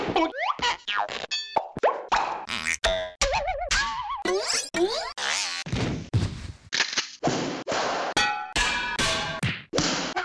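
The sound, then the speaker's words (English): A rapid run of short, varied sound effects played back from tape at an audio mixer's bay: boings, plops, clangs and thunks follow one another in quick succession, each cut off abruptly, loud and without talk. “The mixer would play this string of sound effects in rapid succession, till he heard the one that he wanted, and then he'd stop and grab it.”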